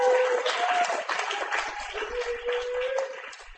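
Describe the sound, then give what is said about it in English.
Audience applause for a performer at a live reading event, dense steady clapping that holds evenly for about three and a half seconds before tapering off at the very end. “Let's give another hand for Tori.”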